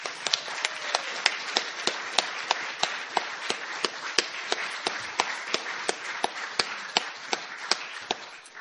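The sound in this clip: Audience applause welcoming a poet at the Ledbury Poetry Festival: a steady wash of clapping, with one sharp, evenly spaced clap standing out throughout.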